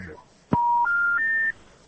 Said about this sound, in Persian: تلفن تماس قطع شد.